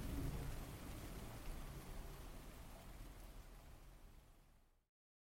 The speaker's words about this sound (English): And today, it looks like the heaviest rain yet.